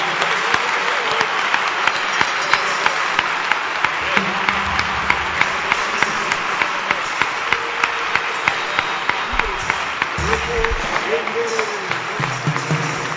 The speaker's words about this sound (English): You can clap. You can. You can clap. Now, if you are clapping, then clap well.